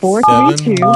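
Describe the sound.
Telephone keypad tones sound as a number is dialed. A few short, steady electronic beeps play under a speaking voice, which stays prominent throughout.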